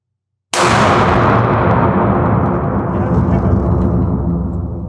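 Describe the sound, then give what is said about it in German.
Gunshot from a shouldered long gun fired at the upper of two target discs: after silence, one sudden, very loud blast bursts out and turns into a long, dense noisy wash that fades only slightly. “entsichern und auf das obere Scheibe schießen”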